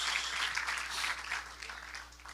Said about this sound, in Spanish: Dele ese aplauso a la gentileza de Dios a la caballerosidad de Dios.